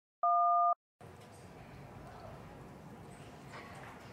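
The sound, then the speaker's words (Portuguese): A voicemail beep sounds after a recorded message: one short, steady electronic tone, clear and isolated, then a brief silence and a low, constant background hiss. “Sua chamada está sendo encaminhada para a caixa postal e estará sujeita a cobrança após o sinal.”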